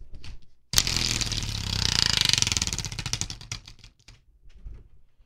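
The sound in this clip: A spinning prize wheel clicks with a quick, even run of sharp ticks that holds steady, then thins out and fades to quiet.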